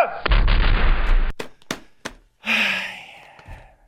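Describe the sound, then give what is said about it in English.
Gunfire volley: a loud, sustained burst of blast noise for over a second, then a few separate sharp cracks, with no voices. “Ready, aim, fire!”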